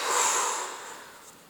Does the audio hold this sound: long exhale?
yes